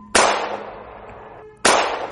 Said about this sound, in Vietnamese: Lại 2 phát súng nữa đã vang lên, vẫn còn 1 viên đạn.